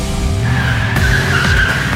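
Tires skid and squeal as an all-wheel-drive Omoda C5 crossover with a petrol engine sets off on a test drive. A loud, sustained high squeal rides over an engine note that climbs repeatedly.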